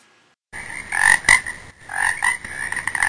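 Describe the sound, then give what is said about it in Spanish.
Toads croaking, a dense chorus of rasping, overlapping calls that starts abruptly after a brief silence and continues loudly with several swelling bursts. “Ojo con los sapos, están en todo el lado.”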